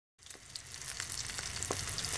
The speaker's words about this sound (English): Aunt Anne is reading the newspaper, and Uncle Merton is cooking eggs.